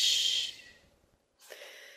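A breathy shushing exhale, a long 'shh' of air pushed out at the end of a breath during a breathing practice. It is loud at first and fades over about a second, then after a short silence another airy hiss begins.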